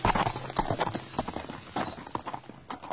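Horse hooves gallop as riders flee: a rapid, loud clatter of many hoofbeats that keeps up a steady driving rhythm throughout.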